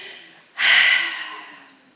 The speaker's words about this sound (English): Let's just take a deep breath all together. One, two, three.